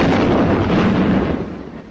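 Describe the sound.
A gun firing a shot produces one loud, dense blast of broad noise that holds for over a second and then begins to die away.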